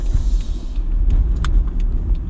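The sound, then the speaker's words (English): A car accelerating hard, its engine giving a low, steady rumble with a few faint clicks and rattles over the top, and no talking. “I just punched it. I put the pedal to the metal.”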